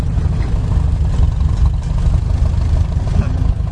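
A farm tractor fitted with a belly mower drives along, its engine giving a steady, loud, low rumble that holds evenly throughout.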